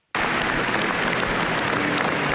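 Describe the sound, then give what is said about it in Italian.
Crowd applause at the funeral of a former Formula 1 driver and Paralympic champion in Padua as the coffin leaves the packed church. The clapping bursts in suddenly and holds as a dense, steady roar. “Un applauso commosso saluta l'uscita del feretro di Alex Zanardi.”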